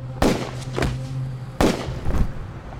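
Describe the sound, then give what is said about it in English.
Pistol gunshots ring out as two gunmen fire on two men during a street holdup on Pearl Street: a few sharp, loud cracks come in two separate clusters, each followed by a fainter report. “The pair simply pulled their triggers. Fred Parmenter and Alessandro Berardelli went down.”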